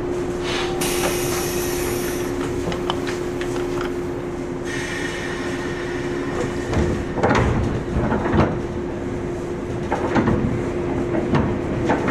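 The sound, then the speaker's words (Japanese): Train doors closing at a station platform over a steady mechanical hum and a constant tone, with several thuds and clattering knocks scattered through the middle and later part. “扉閉めます”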